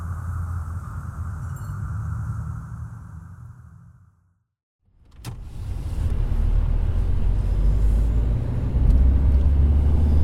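A car drives along with a steady engine and road rumble. The noise drops away briefly to near silence, then comes back louder and fuller for the rest of the drive.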